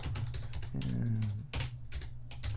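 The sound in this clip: Quick clicking of typing on a computer keyboard, many keystrokes in a loose, irregular patter, with a brief low hum partway through.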